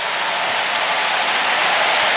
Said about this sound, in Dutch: Zijn invalbeurt wordt op applaus onthaald.